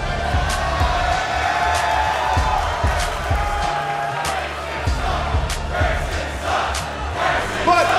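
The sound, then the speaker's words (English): A wrestling crowd chants "Grayson sucks" at Grayson Waller, a loud, continuous massed roar of voices with a rhythmic pulse and occasional shouts. “Week after week, there's a sound that you hear where you hear Grayson sucks.”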